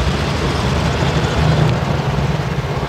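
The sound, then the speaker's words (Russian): A bus engine drones loudly and steadily as the bus turns sharply off an embankment onto Derbenevskaya Street, passing under the shiny pipes of a heating main. The low rumble stays constant with no break. “Автобус делает крутой поворот под блестящими трубами теплотрассы. Съезжает с набережной на Дербеневскую улицу.”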